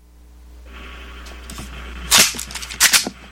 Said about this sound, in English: Militia, prepare, reload.